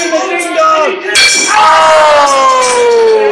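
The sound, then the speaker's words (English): A wrestling ring bell clangs during a match: a sharp metallic strike midway rings out into long, bright tones that slowly fade, following earlier fainter ringing. “This ring bell's getting more of a workout than the workers themselves tonight, right, folks.”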